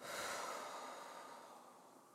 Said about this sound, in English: Let's go ahead and practice one time. So in through the nose and out through the mouth.